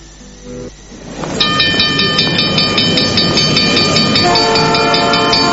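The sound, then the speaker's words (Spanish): A Tren Zonal train runs loudly on its rails, a low rumble building into a steady roar as a sustained multi-tone horn sounds over it and holds, shifting to a different pitch near the end. “Atención pasajeros, próxima estación en la vía libre del Tren Zonal.”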